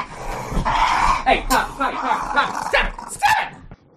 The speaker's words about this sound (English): I already have two doggos. Okay, you're gonna have to go in your kennel, Poppy.